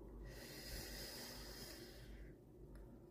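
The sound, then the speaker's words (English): A single deep breath drawn in during a guided breathing exercise: a long, steady, breathy hiss of inhalation lasting about two seconds, heard alone with no talking. “One more for the road. Deep breaths in.”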